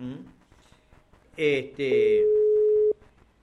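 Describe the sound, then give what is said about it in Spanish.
A telephone busy signal sounds on an unanswered call. After brief talk comes a short tone burst, then a longer steady mid-pitched tone that stops abruptly. “Está en otra comunicación, ¿eh? Para mí que está en otra comunicación el amigo.”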